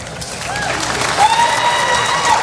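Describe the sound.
Studio audience applause: a steady wash of dense clapping with some cheering, growing slightly louder, while voices speak over it.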